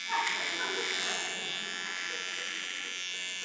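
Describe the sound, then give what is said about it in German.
An electric shaver buzzes as someone shaves in front of a mirror, a continuous, fairly faint, high-pitched whirring drone that holds steady for the whole stretch. “und du schaust dich an im Spiegel und du rasierst dich und du denkst, das sieht nicht gut aus.”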